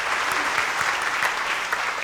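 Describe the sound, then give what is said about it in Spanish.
Applause from a church audience at the close of Mass, a steady, dense patter of many hands clapping at an even, moderate loudness for the whole span. “¿Por qué no brindamos fuertes aplausos a todos nosotros?”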